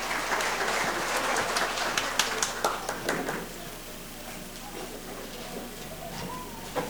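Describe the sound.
A church audience applauds, faint, modest clapping with a few sharper claps for about three seconds before it dies down into a quieter background.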